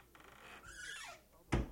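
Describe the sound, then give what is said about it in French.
A door is opened and closed gently: a faint creak glides downward in pitch, followed by a soft, short thump as it shuts. “Ouvrez la porte. Fermez la porte. Doucement, s'il vous plaît.”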